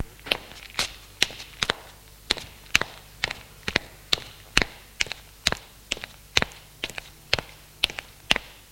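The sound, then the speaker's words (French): Footsteps on the floor above as someone walks upstairs toward the beds: a long run of sharp, regular thuds at an even walking pace, with no voices. “entend ses pas au-dessus d'elle”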